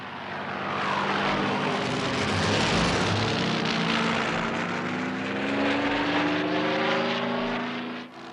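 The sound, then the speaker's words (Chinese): Propeller engine of a Spitfire fighter plane in a video game, a loud, steady droning roar with a buzzing harmonic tone that holds at full strength for the whole eight seconds. “黄色分队注意护航战斗机。 是喷火。”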